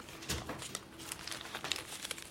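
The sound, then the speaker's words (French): Faint, crackling crumple of paper documents being handled, old printed declarations and tracts glued together, made of many small irregular crinkles and snaps spread across the moment. “Bah, attention! Vous allez les déchirer, il faut les humidifier. J'ai besoin de ces documents.”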